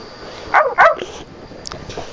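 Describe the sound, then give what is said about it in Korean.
A dog barks twice in quick succession, two short, sharp yips close together, then only faint, scattered sounds follow. “강아지다.”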